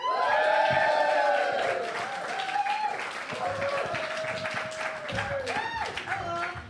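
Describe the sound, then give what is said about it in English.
An audience member at a live comedy show shouts a posh-sounding hello that rises above the crowd's cheering and clapping, with a few more voiced calls breaking through the noise. “That was a nice posh hello from one member of the audience.”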